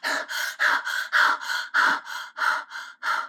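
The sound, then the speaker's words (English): Heavy panting from a person who has just run hard, many quick gasping breaths in a steady, even rhythm, loud and alone with no talking. “Loki was a very fast runner, and he caught up with Alfredo in less than a minute. Alfredo was panting hard”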